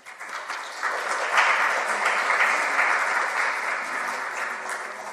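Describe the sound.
Audience applause welcoming an author at a book talk: steady, sustained clapping from a crowd that swells early, then holds through to the end.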